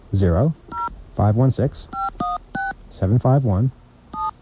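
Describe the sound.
Touch-tone telephone keypad dialing a number, with several short, steady electronic beeps at uneven intervals, alternating with people talking.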